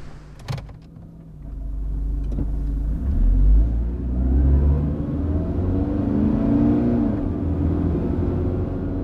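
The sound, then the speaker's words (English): A car's low engine and road rumble carries on a long drive from Huddersfield to London, steady and droning throughout, with a brief click near the start and gentle swells in the rumble. “Elizabeth drove back from Huddersfield to London. It was a long drive.”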